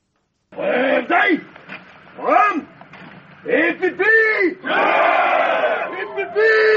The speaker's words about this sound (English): This is the sound of 400 Cameroon gendarmes singing as they arrive in Bamenda from the capital Yaoundé as they vow to defend the country's territorial integrity.